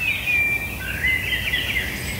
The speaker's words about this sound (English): So the robin is that faster, more twittery kind of song that you're hearing.